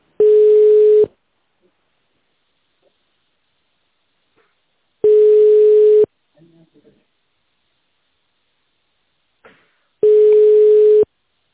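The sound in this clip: Telephone ringback tone while waiting for an answer: three steady one-second tones at the same pitch, separated by long silent gaps, with a few faint small noises between them.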